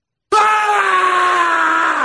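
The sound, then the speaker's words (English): A recording of a man screaming plays back. The loud, sustained scream starts abruptly after a short silence and holds steady to the end without a break. “Which Michael Irvin scream is better? Is it this one?”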